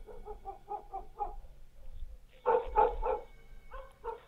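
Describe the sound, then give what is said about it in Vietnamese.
A neighbour's dog barks in bursts: first a quick run of small, light yaps, then a few louder, fuller barks after a short pause, and a couple more at the end. “con chó nhà hàng xóm, nó cứ sủa nhấm nha nhấm nhẳng. Thỉnh thoảng nó chu lên ông ổng, nghe đến quái dị.”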